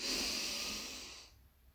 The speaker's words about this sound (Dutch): Zodat je dus goed contact maakt met de vloer. Of als je in de buitenlucht zit, letterlijk met de aarde. En adem diep in.